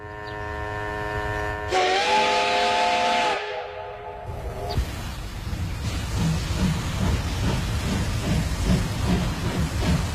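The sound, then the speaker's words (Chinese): A steam train's whistle sounds in two long, steady chord-like blasts, the second a different chord. Continuous heavy rumbling and clatter from the train follows, with no talk. “纺织机器和蒸汽火车轰隆作响”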